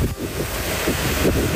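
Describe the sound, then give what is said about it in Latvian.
Wind blows by the sea in a rough, continuous roar with gusty buffeting and uneven surges. No voices are heard. “Mans pie jūriņas aizgājis, pasties, kā pūš vējels.”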